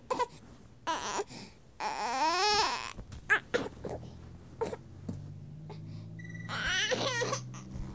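A baby fussing and crying in short bursts: whimpers and sobs build into a longer wavering wail, then break into uneven, fretful cries, fairly loud, with no talk.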